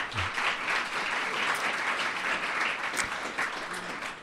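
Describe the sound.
Audience applause welcoming a guest, a retired member of Parliament, as a steady, dense patter of many hands clapping that stays level throughout.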